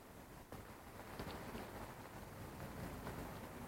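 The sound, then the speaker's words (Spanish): Rain falls in a film scene as a faint, continuous, soft hiss that stays even throughout, with no voices. “Lo hemos conseguido, chicos. ¡Llueve!”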